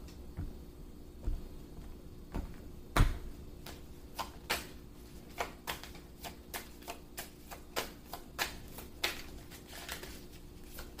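Tarot cards being shuffled and dealt for a reading, a long irregular run of crisp dry snaps and clicks, quiet and alone, with a few sharper flicks standing out among the many.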